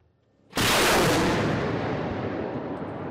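A nearly 60-year-old Soviet-built Grad rocket launcher fires at a Ukrainian position near Kherson: a sudden, very loud blast bursts in, then a sustained roaring rush fades slowly over the next two and a half seconds.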